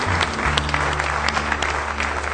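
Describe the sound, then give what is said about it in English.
A church audience gives a hand clap of praise during a service, many hands clapping in a dense, lively burst that stays loud and even for a couple of seconds. “You give him a good hand clap of praise if you love him tonight.”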